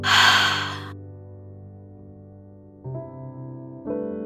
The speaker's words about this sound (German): Atme einmal tief ein und wieder aus. Einatmen und ausatmen.